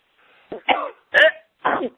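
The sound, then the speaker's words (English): Short, harsh coughs come in a few separate bursts with brief pauses between them. They are heard alone, without talk, during a loud prayer to cast out spirits. “Get out. Cough them out.”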